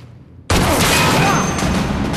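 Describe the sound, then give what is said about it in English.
Gunfire erupts abruptly after a short quiet lead-in, as a man shoots at Sarge in a Doom-style chamber fight. It becomes a loud, roaring, sustained blast that stays dense and harsh to the end. “He shoots at Sarge.”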